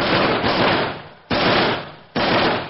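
Loud rifle gunfire aimed toward a man by an old garage: a few sharp shots, each a hard crack that spreads into a long decaying roar before the next shot cuts in abruptly.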